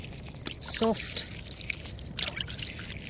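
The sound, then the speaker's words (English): Water trickling and dribbling over an uplifted coastal reef on the Kaikōura coast after an earthquake. A few faint, irregular trickles and drips rise over a low, steady wash. “So first of all, here is what it used to sound like probably. So water, obviously.”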